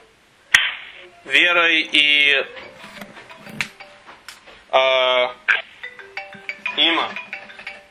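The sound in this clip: A telephone rings in a few trilling electronic bursts separated by pauses, with scattered clicks and knocks between the rings.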